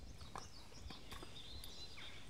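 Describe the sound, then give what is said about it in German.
Horses walking along a trail, a few faint, irregular hoof clops over a quiet, hissy background, with no talk. “Ich bin mit meinen Pferden auf dem Westweg unterwegs”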